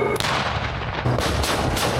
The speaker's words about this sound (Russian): достигаются проведением ежедневной подготовки с боевой стрельбой танковых экипажей при взаимодействии с боевыми машинами поддержки танков «Терминатор».